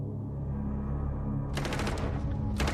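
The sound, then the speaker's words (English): Police open fire as the 1923 putsch is crushed. Rapid gunfire crackles in a dense volley, pauses, then a second short burst follows over a low, steady rumble. “When the police opened fire, Hitler's 1923 putsch came to an end.”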